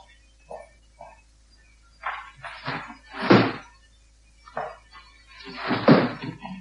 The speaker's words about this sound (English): Open some windows, please.